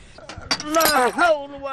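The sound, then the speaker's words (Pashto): A glass cup breaking: a few quick, bright clinks and a crash, soon overtaken by a voice crying out loudly. “مات شو زه خیر زه یې شیشې ټولومه د محب پیاله هم وه”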